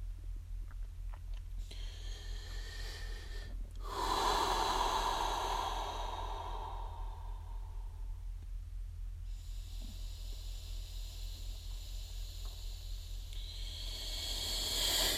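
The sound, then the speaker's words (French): Slow, deep breathing during a silent morning guided meditation: a few long, airy breaths rise and fall over a steady low hum, with no talking. “commencer à s'offrir de plus grandes respirations, 5 ou 6.”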